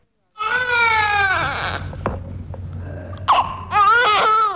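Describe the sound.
A young boy cries loudly in long, wavering wails. Choked hiccuping sobs and short gasps break the crying midway, then it picks up again at full strength.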